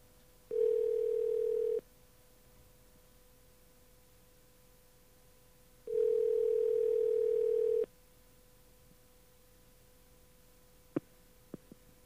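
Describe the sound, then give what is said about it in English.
A telephone tone sounds as a collect call is placed: two long, steady, mid-pitched tone bursts separated by a quiet gap, followed by a few faint clicks near the end. “And let's call this number collect and see what happens.”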